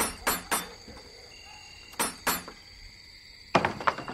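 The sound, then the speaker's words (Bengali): A wooden door is opened at a single-storey house in a lane: two pairs of sharp thuds, then a quick burst of rattling clacks near the end. “দরজা খুললেন একজন বেঁটে শুকনো বুড়ো ভদ্রলোক।”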